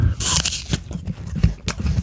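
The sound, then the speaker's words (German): Crisp crunching as someone bites into and chews a slice of Granny Smith apple with the core cut out. Loud, dense bursts of crunch repeat steadily throughout. “Eine Spalte Granny Smith.”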